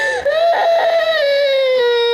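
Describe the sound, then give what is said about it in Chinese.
A child cries in a sustained, high wailing tone that rises slightly and then slowly sinks, loud and unbroken for about two seconds. “别哭了，疼不疼呀？”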